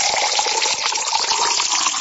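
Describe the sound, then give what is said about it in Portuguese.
Spring water from a tap pouring to be drunk: a loud, continuous gushing splash that holds steady throughout, with no voices. “Cléber Egídio reclama que não tem café, mas aqui é água mesmo, é água boa. Vem lá da bica. Vamos tomar aí, ó.”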